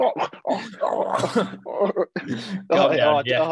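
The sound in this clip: A man clears his throat, several rough, rasping guttural bursts of varying loudness strung together over a few seconds, with no words spoken.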